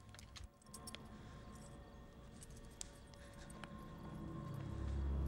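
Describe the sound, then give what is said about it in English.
Car keys jangle as someone walks away carrying them, giving a few faint, light metallic clinks over a low rumble that slowly grows louder toward the end. “He starts to walk away, carrying the keys.”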